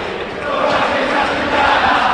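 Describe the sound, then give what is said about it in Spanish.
Racing Club supporters roar as they rise in the packed stadium in Avellaneda for a Sunday-night derby against Boca: a dense, steady wall of cheering that swells slightly, with a commentator talking over it. “Se levanta el público de Racing aquí en Avellaneda.”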